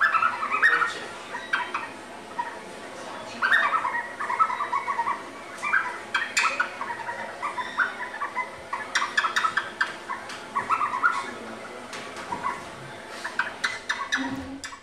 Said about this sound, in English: The blackbird has a great song. It sounds like this.